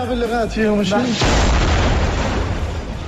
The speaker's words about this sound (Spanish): Que acaba de caer una bomba en el patio del hospital. Sí, sí, sí, a 10 metros de donde estamos.